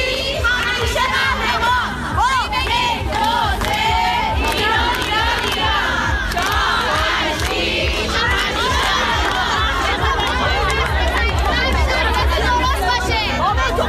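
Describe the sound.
Crowd chanting slogans after a chant leader, with loud massed voices shouting in rhythmic bursts amid overlapping yells and chatter that never let up.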